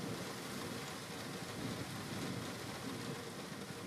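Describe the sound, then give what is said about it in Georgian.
Rain falls on an open convertible car in Scotland, a steady, soft hiss with dense patter that holds even throughout, no voices present. “ვიქირავე კაბრიოლეტი, სახურავი გავხსენი და წვიმა დაიწყო.”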